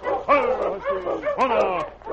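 Sled dogs barking and yipping, a rapid run of many short, tonal yelps and whining barks at a steady, moderate loudness.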